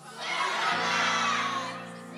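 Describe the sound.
Audience shouting out answers together at a live Q&A. It is one loud burst of mixed voices that swells quickly, holds for about a second and then fades.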